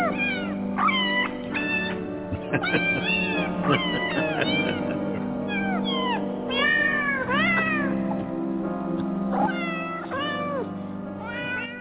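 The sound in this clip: A cat meows again and again, many short rising-and-falling cries in quick succession, steady and clear throughout with no talking.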